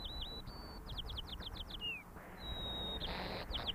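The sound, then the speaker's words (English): Recorded birdsong showing a local song dialect: faint high whistled notes, a quick run of repeated downward-sweeping chirps, a descending slur, then a long steady whistle followed by further brief notes. “songs of two birds recorded only miles apart, but they live in different dialects. Areas, and it's that second part of the song that denotes the local dialect in the area in which that bird lives.”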